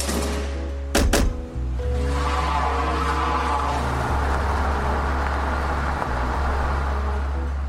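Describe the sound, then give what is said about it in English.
A white van pulls away: a heavy thunk sounds early on, then a steady, loud low engine drone runs unbroken to the end with a faint, rough road hiss above it. “They quickly rushed me out of the building and took off in a white van.”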